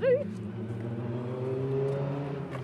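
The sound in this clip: Rally car engines droning as the leading cars arrive at the timing boards of a time control. A steady, loud engine note with strong harmonics holds throughout, and a brief rising whine is heard at the start.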